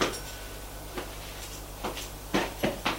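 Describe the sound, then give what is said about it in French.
A door opening into a modern kitchen, heard as a few faint clicks and knocks of the latch and door. The sounds are spaced out at first and come closer together toward the end, with no voices. “Une pièce s'ouvre, une porte s'ouvre.”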